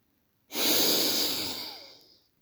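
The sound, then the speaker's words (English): One slow inhale is drawn in during a guided breathing exercise. It is an airy hiss that begins abruptly after a short silence, holds steady, then tapers away, and no one speaks. “And that was the inhale.”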